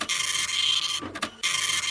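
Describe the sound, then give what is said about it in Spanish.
An old printer prints with a steady, buzzing mechanical whir that cuts out briefly midway, gives a few softer knocks, then resumes at the same level. “O sea, digo yo, ¿no es un poquito antigua la impresora?”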